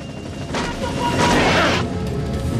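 Rebel gunfire striking a military helicopter: a loud, dense burst of crashing impact noise that swells, holds for about a second and fades back into a steady rumbling background.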